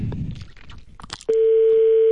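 A telephone call tone on a phone line: a few soft clicks and rustles, then a loud, steady, unbroken tone that starts abruptly and holds at one pitch until the end.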